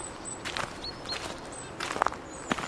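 Footsteps fall on wet slate along a forest path in the Kammerwald: a few soft, faint crunching steps, sparse and uneven, over quiet background.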